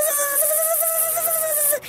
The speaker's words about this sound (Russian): Вылетел комар в окно и запищал, что было сил.